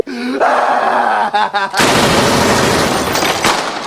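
Rapid gunfire in a radio comedy sketch: a brief opening of voiced, groaning sounds gives way to a loud, dense, sustained burst of machine-gun-like shots that runs to the end.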